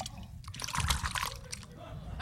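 Liquid sloshing and splashing as a white whiskey cocktail with crushed garlic is stirred quickly in a glass, a brief, faint, wet churning sound.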